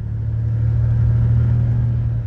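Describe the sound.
A small airplane's engine drones steadily during a flyover of mountain wilderness terrain. The low-pitched hum is loud and continuous, holding an even level throughout with no voices.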